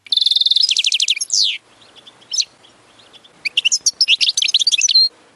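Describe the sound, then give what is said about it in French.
European goldfinch song: a fast, high trilling run of chirps, then a short pause with a single note, followed by many bright, tinkling twitters in quick bursts, clear and alone. “Le chant de l'Hélio, hein, le chant du chardonneret de Liola”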